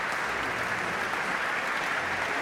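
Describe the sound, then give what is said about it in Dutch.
Applause from a classical summer evening concert audience greeting the conductor: a dense, steady wash of many hands clapping at an even, full level throughout, with no pauses or voices standing out. “En u hoort het applaus voor dirigent Tiani Lou.”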